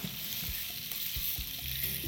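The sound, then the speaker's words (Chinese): Sizzling of aromatics stir-fried with soy sauce, a continuous bright hiss of hot oil held steady throughout, with occasional low knocks and scrapes from the stirring. “当我们把它爆香了之后，它的味道就不一样了。”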